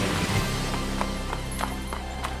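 Horse hooves at a calm, relaxed gallop, a steady series of crisp clip-clop beats in an even rhythm over a continuous low background.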